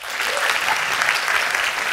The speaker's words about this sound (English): Clap here if you are in now or are studying to be in the film industry.